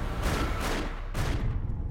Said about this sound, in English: Several 911 calls came into the sheriff's office and the highway patrol from people reporting a shooting in the area. The sound of shots fired.